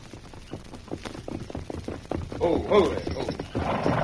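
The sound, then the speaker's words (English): Horse hoofbeats of a rider approaching on horseback: a rhythmic clip-clop of many hoof strikes that grows louder in the second half. “I've got you covered and I'm riding toward you.”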